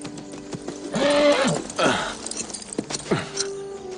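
A horse whinnies in several loud, wavering calls mixed with short snorts, with a few sharp knocks in between.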